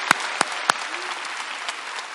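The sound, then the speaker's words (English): Audience applause at a church service, given as a big hand for the military: steady, dense clapping from many people, with a few sharper, louder claps standing out near the start. “Let's give them a big hand out there. And hello to the military. Hello to the military. Let's give a big hand to the military out there.”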